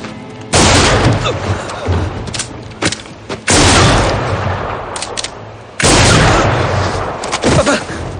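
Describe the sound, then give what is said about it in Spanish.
Gunfire in the 2007 western 3:10 to Yuma: three loud, heavy booming shots, each followed by a long decay and scattered sharper cracks, with no voices. “Súbitamente Charlie abre fuego. ¡No! dispara sin piedad contra Evans.”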